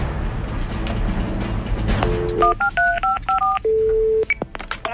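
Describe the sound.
Telephone keypad tones as a number is dialled to place a call: a quick run of short, clear dual-pitched beeps, then one longer steady tone and a final brief beep, after a murky stretch of background noise.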